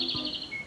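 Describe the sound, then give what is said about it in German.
A robin sings a brief snippet of its song, made of thin, high, whistled notes that waver slightly over a soft background hiss. “Das ist das Rotkehlchen.”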